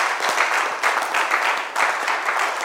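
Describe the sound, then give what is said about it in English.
A church audience applauds, a dense, continuous patter of many hands clapping at steady loudness throughout. “Why don't you clap for Jesus”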